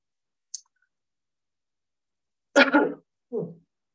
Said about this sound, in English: sorry, COVID voice. Sort of a bit of a cough.